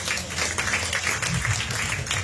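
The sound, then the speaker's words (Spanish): Church audience applauding as an offering to the Lord during a service, a fairly faint, uneven patter of clapping hands that runs for a little over two seconds. “Dale una ofrenda de palmas al Señor.”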